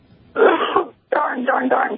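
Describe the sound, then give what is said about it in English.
A person clearing their throat in two rough, voiced bursts separated by a short pause, the second burst slightly longer and more broken. “excuse me, I've got to clear my throat here.”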